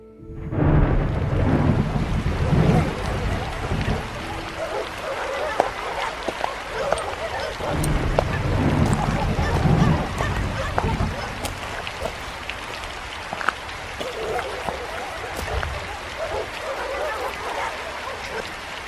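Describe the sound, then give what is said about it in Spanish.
Heavy rain pours during a thunderstorm as a dense, continuous hiss, with low thunder rumbling and swelling at times beneath it. The downpour holds steady throughout, with no voices. “¿Por qué saliste así con esta lluvia?”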